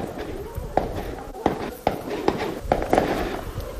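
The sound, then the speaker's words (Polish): Gunshots from shooting practice at an Israeli police post: several sharp, sudden cracks at irregular intervals, with two close together near the end, over a steady background hiss. “To słyszę jakieś strzały. What are they shooting? Are they training? Aha. To jest posterunek policyjny izraelski”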